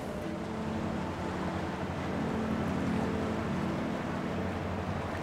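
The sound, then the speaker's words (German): A boat travels across the Templiner See, a lake near Potsdam. Its engine drone and rushing water blend into a steady, even wash of noise with a low hum underneath. “Fahren wir hier gleich durch den Templiner See, mhm, und dann weiter die Potsdamer Havel lang bis nach Werder.”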